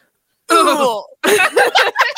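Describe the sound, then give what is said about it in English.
A man's voice imitates an exhausted grunt: a drawn-out groan that falls in pitch, then a short pause and a choppy string of strained, breathy bursts. “What about, you know, a guy's like exhausted grunt?”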